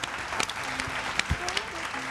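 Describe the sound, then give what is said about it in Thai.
Children clap for themselves in a children's drawing class. The applause is a dense, steady patter of many hands that lasts about two seconds, with a few sharper claps standing out. “เอาปรบมือให้ตัวเองด้วยครับเก่งมาก”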